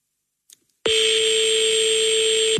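Ringing of an unanswered telephone call: a brief faint blip, then a single long, loud electronic buzzing ring that holds steady for under two seconds and stops abruptly.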